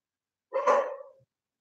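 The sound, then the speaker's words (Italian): A small dog gives one short, sharp bark, heard alone against silence. “il mio cagnetto baia”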